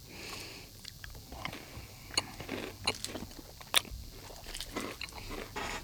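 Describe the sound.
Biting and chewing a Violet Crumble chocolate honeycomb bar makes a run of many sharp, brittle crunches at an uneven pace, fairly quiet, with a few louder cracks.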